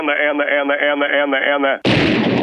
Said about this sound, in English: Gotta do a remote control gunshot.